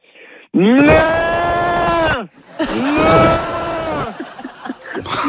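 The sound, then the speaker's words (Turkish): A human voice imitates a calf bawling for its mother: two long, drawn-out, loud moo-like calls, each swelling then sagging in pitch, separated by a brief pause. “peki annesini özlemiş buzağı yapabilir misin sen?”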